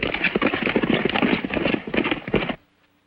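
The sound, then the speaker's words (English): Hoofbeats of a gang of horses galloping into a ravine in a Western film: rapid, dense clip-clop thudding that pounds on loudly, then cuts off abruptly and leaves near silence. “Zanty and his gang gallop into the ravine.”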